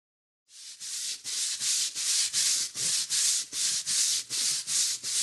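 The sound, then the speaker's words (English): Brush scrubbing soapy concrete to loosen grime: a steady run of many rhythmic, hissing strokes, each a loud, rasping sweep with short gaps between, continuing evenly to the end with no talk. “Nothing but soap on the concrete so I can control the grime with my brush. Then when it's loosened, I can rinse it all away.”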